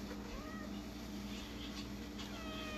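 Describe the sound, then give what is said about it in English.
Faint meows from a cat seeking attention, a few short, thin cries over a steady background hiss. “You just meowing for attention?”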